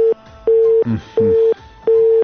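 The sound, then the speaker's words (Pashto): A telephone busy tone after a dropped call: a loud, steady single-pitched beep repeats in short, evenly spaced pulses, with fainter murmuring sound in the gaps between them. “له بده مرغه د عبدالوارث امیری تماس موږ سره قطع شو.”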